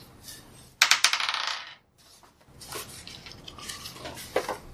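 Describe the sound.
Dice rolled during a tabletop role-playing game session: a sharp clattering burst of rattling hits that fades out over about a second, followed by softer handling noises and faint scattered clicks.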